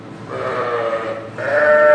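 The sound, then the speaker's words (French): Sheep bleating from a flock of ewes on a dairy farm of several hundred milking ewes: overlapping, sustained nasal cries blend into a steady chorus that swells louder toward the end. “On a 700 brebis. Ce lot-là, c'est un lot qui va faire l'agneau au printemps pour la traite de l'été.”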